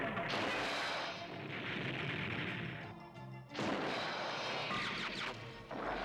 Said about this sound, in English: That's a heat-seeking missile!